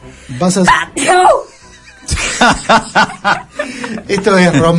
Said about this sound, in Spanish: El tipo estornuda.